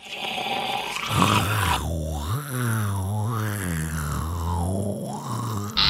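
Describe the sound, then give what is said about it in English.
A person's voice imitating a zombie groan: a low, gravelly moan held for about five seconds that swells and dips in a few slow waves, heard alone without other talk. “The Walking Dead, again, they sound like this.”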